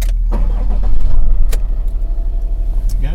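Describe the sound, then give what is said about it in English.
A three-and-a-half-ton medium van's engine runs with a loud, steady low rumble that swells briefly early on, then settles into an even, pulsing idle. “Right, I'm gonna start. So this is typical medium sized van, I guess, a bit bigger than the standard sort of... Yeah, three and a half ton in total.”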